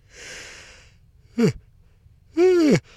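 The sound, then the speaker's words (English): A person yawns in a sleeper train bunk, beginning with a long breathy inhale. A short voiced sound follows, then a longer, louder voiced groan with a curving pitch. “You just yawned up there, didn't you?”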